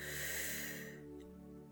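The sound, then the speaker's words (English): A deep breath drawn in through the mouth during a guided breathing exercise, a soft airy rush lasting under a second before fading away, over a steady low tonal hum. “So breathe in the mouth,”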